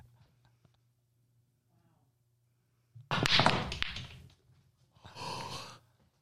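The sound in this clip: Soundboard effect of pool balls cracking on a nine-ball break: a sudden loud burst of sharp clacks that trails off, then a second, shorter rattle after a brief gap.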